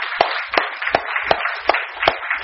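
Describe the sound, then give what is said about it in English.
Clapping from an audience welcoming four new seventh graders at Cornerstone: about seven sharp, evenly spaced claps in a steady rhythm over a light bed of scattered hand noise, with no voices. “All right, we got four of them here, so let's give them a hand.”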